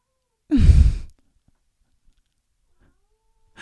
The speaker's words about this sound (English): that's my cat. She's like trying to get in here.